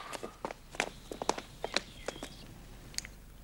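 Footsteps of someone walking: many soft, fairly regular steps with light scuffs, faint and unhurried, and no talk over them.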